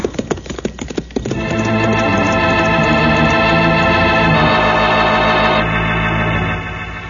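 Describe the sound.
A horse galloping, with a quick run of sharp hoofbeats in the first second, followed by a loud sustained musical chord that holds to the end.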